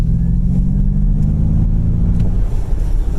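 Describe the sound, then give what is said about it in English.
A Mach-E electric car plays a fake V8 engine rumble through its speakers: a loud, steady, low droning hum with a buzzy texture that holds continuously throughout, with no distinct revs or gear changes. “Is that supposed to be like a rumble? It's like this rumble V8 sound that gets pumped through the speakers.”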